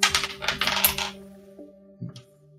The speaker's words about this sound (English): Any more I can't find my D10. Sorry, it's just in the bowl of dice somewhere.